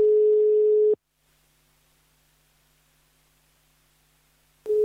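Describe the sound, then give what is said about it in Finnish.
A telephone ringback tone plays while a call is placed: one steady mid-pitched tone lasts about a second, then a long near-silent pause follows before the tone starts again at the end. “Soitan venäläiselle ulko- ja turvallisuuspolitiikan asiantuntijalle Fjodor Lukjanoville.”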